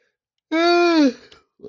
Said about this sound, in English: Let me get this yawn at first.